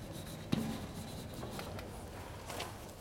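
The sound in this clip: Scratchy writing strokes as a short rectangular pulse diagram is drawn on a board, faint and steady, with one sharp tap near the start and no talk.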